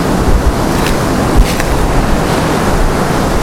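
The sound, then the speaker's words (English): Strong wind buffets a microphone fitted with a wind muffler, a loud, continuous low roar with a few brief gusts pushing through. “that wind, I don't know if you can hear it through my wind muffler, that wind is absolutely horrendous.”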